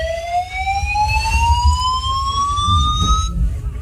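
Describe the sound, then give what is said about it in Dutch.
Building evacuation alarm: a loud, slow-rising electronic whoop with bright harmonics that sweeps upward across the whole clip, alone with no voices. “En dan nu een evacuatie. Nee, dit was pas geleden hier in het gebouw, moet je horen.”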